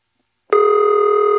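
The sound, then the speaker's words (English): A typical AE telephone ring tone begins abruptly after a short silence. It is steady and buzzy, with a slight warble, and holds at even, fairly loud volume until the end. “That's typical AE ring.”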